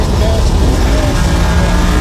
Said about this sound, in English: That's video of you actually driving. Driving the car. Yeah, there's another little clip here where I hit the gas.